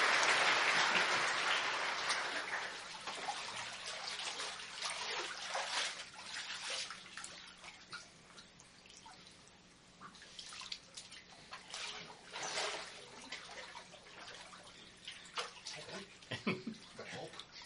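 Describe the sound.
Water splashes and sloshes during a baptism by immersion, with a loud surge at the start that settles into lighter, irregular splashing and dripping over many seconds.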